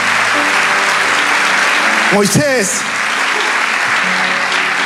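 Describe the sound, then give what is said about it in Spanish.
Audience applause at a sermon: loud, steady clapping fills the whole clip, with a voice briefly heard over it partway through. “Vamos, dale ese aplauso.”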